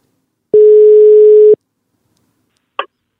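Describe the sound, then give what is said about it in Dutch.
A single steady telephone tone, lasting about one second, sounds as a call is placed to someone. It is followed by silence and then a brief click, with no talk. “We gaan hem even bellen.”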